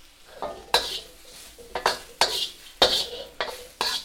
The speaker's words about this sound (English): So this sound of the wok chan, that's what this is called, this spatula, this is a constant noise in my house growing up.